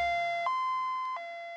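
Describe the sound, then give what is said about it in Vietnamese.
Ambulance siren wailing in a two-tone pattern: a steady tone steps up to a higher pitch, holds, then drops back down, loud and alone. “Vừa đúng lúc tiếng còi inh ỏi của xe cấp cứu vang lên.”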